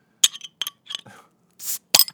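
A glass fifth of Tito's vodka is opened with a few bright glassy clinks and taps, a brief hissing scrape, then another sharp clink, each short and separated by silence.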